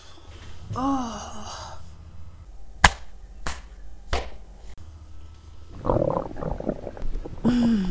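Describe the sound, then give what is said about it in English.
A stomach rumbles after a meal of cupcakes with marshmallow topping, making soft gurgling squelches that wobble in pitch in a few separate bursts, with several sharp clicks between them. “Listen to my tummy making happy stuffy sounds.”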